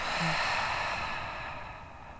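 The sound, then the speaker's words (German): A deep breath is drawn in and slowly let out, a soft, airy rush of breathing that gradually fades. “Dann atme einmal tief ein und langsam wieder aus.”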